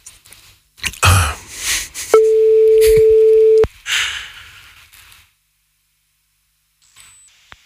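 A telephone call rings out on the line as a single steady, low ringback tone lasting about a second and a half, surrounded by handling noise and rustles, then near silence.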